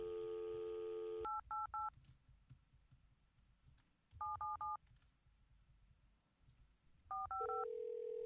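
Touch-tone keypad beeps dial a toll-free number, arriving in three quick clusters of short tones separated by pauses. A steady, hum-like dial tone sounds at the start and again at the end, all fairly faint.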